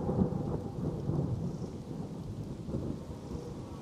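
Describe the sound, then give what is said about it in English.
Thunderstorm with rain dripping through tree branches: a continuous low, rumbling wash of thunder and rain that stays fairly even in loudness throughout, with no voices. “It has become somewhat stormy here. The water seems to drip through the trees, branches, straight onto your heads.”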